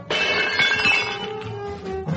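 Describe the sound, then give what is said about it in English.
A jeweler's large plate glass window is smashed with an iron bar: a loud crash opens into bright, ringing shards of glass that tinkle and fade over two seconds, with a second smaller clatter near the end. “Quickly, he crosses the pavement and smashes the jeweler's large plate glass window.”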